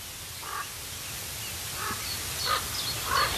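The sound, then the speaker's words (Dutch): Hoarse raven calls on an estate at the edge of the Veluwe: a few spaced, fairly faint croaks over a steady background hiss, growing slightly louder toward the end. “Geweldig geluid, hè, die raven.”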